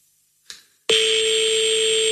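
Telephone ringing on an unanswered call to a number in Paris: a sharp click, then a loud, steady electronic tone that holds unbroken to the end.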